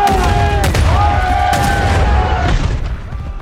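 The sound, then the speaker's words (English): Gunfire volleys in a Napoleonic battle scene from a film, a few sharp booming cracks spaced about a second apart over loud, sustained tonal sound. “Prepare to fire! Fire! Fire!”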